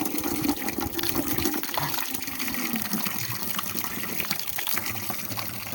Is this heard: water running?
yes